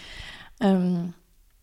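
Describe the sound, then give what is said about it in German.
A sip of cocoa: a soft slurping draw, then a short voiced sigh of satisfaction that ends abruptly, followed by near silence. “Jetzt kommt hier nochmal so ein Schluck Kakao. Da kommen auch gleich noch mehr.”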